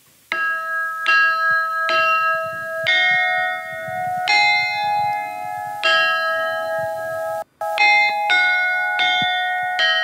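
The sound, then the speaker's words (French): A tune played by striking bells with a small hammer: a run of many clear, ringing metallic notes at a steady pace, each with a bright attack and a sustained tone, broken by one short gap. “Je prends un petit marteau et je vais essayer de vous jouer un petit morceau de musique.”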